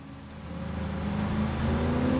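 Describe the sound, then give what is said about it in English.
Engine of a red car with black stripes speeding along a seafront in Baja, Mexico, kicking up dust; a steady motor drone that grows louder and climbs in pitch. “A red car with black stripes speeds along the seafront, kicking up dust.”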